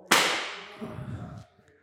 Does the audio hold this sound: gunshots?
yes

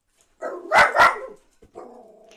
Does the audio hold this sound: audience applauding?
no

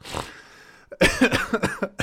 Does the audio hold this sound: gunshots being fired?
no

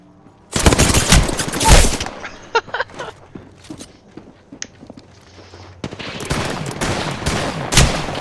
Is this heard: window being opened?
no

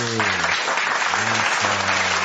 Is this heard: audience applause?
yes

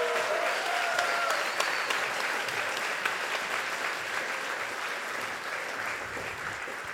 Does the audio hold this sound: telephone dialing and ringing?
no

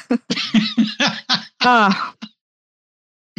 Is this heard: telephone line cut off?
no

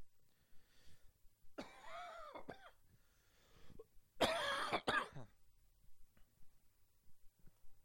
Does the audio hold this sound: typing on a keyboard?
no

